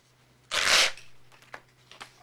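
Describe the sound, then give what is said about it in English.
A check torn out of a checkbook: a single loud, brief ripping burst of paper, followed by a few faint, soft paper rustles and taps. “She tears out the check.”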